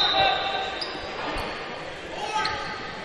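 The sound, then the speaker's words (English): A basketball is dribbled behind the back by a senior player during a high school game, giving a few dull, rhythmic bounces beneath steady background crowd noise and voices. “Behind the back dribble.”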